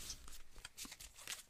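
Playing cards are moved and shuffled to the bottom of the deck during a tarot card reading: several soft, papery rustling and sliding bursts, quiet and alone.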